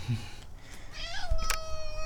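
A pet cat meows: a short rising cry, then a higher, drawn-out note, moderately soft over faint background noise.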